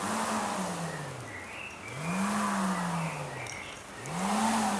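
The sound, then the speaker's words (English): A porotiti, a disc with two centre holes spun on a wound string, gives a low whirring hum. Its pitch rises and falls in three repeated swells as the string winds and unwinds, fairly faint against a soft hiss. “This is a porotiti, which is just anything with two holes in the center with some string. Wind it up and pull it, and it makes a, you'll get the sound.”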